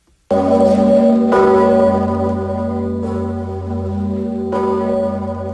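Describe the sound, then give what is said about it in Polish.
A huge 500-year-old cathedral bell, swung by twelve ringers, tolls four deep, heavy strikes at uneven intervals, each followed by a long resonant hum with rich ringing overtones, loud and with no talk. “Pięknie, prawda? 12 milionów uderzeń już ma za sobą dzwon Zygmunta.”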